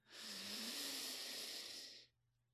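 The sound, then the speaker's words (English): A single slow, deep breath through the nose as part of a guided breathing exercise, a smooth airy hiss held evenly for about two seconds and then cut off into silence. “Take one big inhale in and exhale out into the nose, deep into the belly,”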